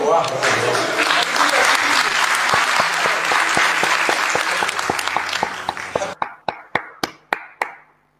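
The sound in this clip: An audience applauds to welcome a speaker at a lecture: loud, dense clapping with voices, which thins near the end to a handful of separate, crisp claps.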